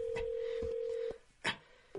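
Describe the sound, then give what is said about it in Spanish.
Telephone keypad tone as the 1 key is pressed during a call from inside a buried coffin in the Iraqi desert in a thriller film. A steady electronic tone holds for about a second, then cuts off, followed by short clicks. “Marca el 1.”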